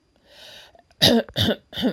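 Someone clears their throat in a few rough, raspy bursts that follow a softer, breathy sound. The bursts are moderately loud and there is no other speech.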